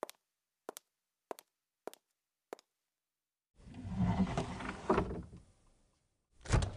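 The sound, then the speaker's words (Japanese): A cupboard being opened: a few light clicks spaced apart, then a rumbling sliding scrape that swells and fades, followed by one more short scraping burst. “戸棚？さあ、なんだろうね。開けて確かめてみたら。”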